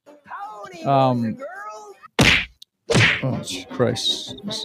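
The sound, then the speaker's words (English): Punching sound effects as a clown is beaten: a few sharp, loud whacks and thwacks, with a vocal-sounding passage before them. “Why are you punching the clown in the middle of the podcast? That was a clown getting beating.”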